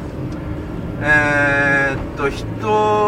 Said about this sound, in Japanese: 車乗ってますけど、これ運転してないですからね、僕助手席乗ってますからね、これね。